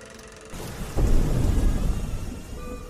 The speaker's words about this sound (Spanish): Esa noche llovía. Me asomé por la ventana, pero no lograba ver más que aquella lluvia caer, iluminada por la lámpara de la esquina. La tormenta había hecho que la calle se viera tranquila,